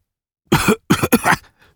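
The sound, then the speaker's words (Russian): Harsh, raspy coughing from someone who has inhaled poisonous gas: three loud bursts in quick succession, the last one longer and trailing off, with no talk. “Под конец вдохнувший ядовитый газ Раф непрерывно кашлял, сплевывая темную кровь.”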